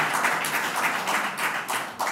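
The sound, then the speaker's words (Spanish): Audience applause for mayors and councillors of the region at a public address: brisk, continuous clapping with uneven swells, fairly loud and without voices over two seconds. “Y también, por supuesto, un aplauso a vosotros.”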